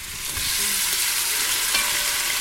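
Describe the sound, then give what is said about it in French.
Meat searing in a film of oil in a large pot for a chorizo sauté gives a loud, steady sizzle, a continuous crackling hiss that holds throughout without pause. “Donc, tu prends ta, ta grosse, grosse marmite et tu mets un fond d'huile. Allez, on lance la viande.”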